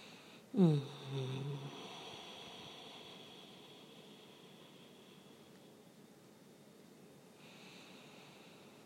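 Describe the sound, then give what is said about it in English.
Slow, guided breathing: a sharp nasal inhale near the start, then a soft exhale hiss that fades into near silence. “Breathe. Breathe in through the nose. Slowly out.”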